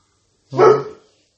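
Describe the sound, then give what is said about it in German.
A dog gives a single short, full-throated bark at neighbours in the hallway; the one sharp bark stands alone and fades quickly. “Das ist mein Hund. Der hat gerade entdeckt, dass Nachbarn im Flur sind.”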